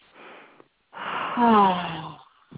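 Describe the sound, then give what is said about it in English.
A deep breath taken on cue: a short, airy inhale, a brief pause, then a long exhale that turns into a voiced sigh with falling pitch and fades out. “And I'm just going to let all of that be okay. So let's take a deep breath.”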